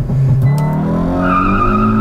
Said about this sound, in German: So, ich gebe Vollgas.